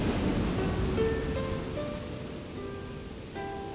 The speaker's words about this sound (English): the sound of the ocean, sound of waves, surging and churning of water,